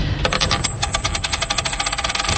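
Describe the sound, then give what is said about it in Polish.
A tossed coin spins and rattles during a radio prize game. It makes a rapid run of many light metallic ticks over a thin, high, sustained ring, steady and fairly loud for over two seconds. “To rzut monetą.”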